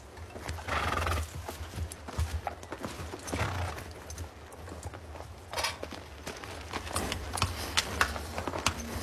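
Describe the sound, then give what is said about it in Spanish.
A nervous horse being mounted, its hooves clopping and shuffling many times in an uneven rhythm, with whinnying snorts breaking through. No talk. “Jack monta su nervioso caballo”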